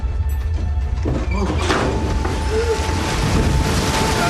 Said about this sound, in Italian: Le onde si arrampicavano sempre più in alto e la schiuma bianca, catturata dal vento, sferzava il fianco della nave.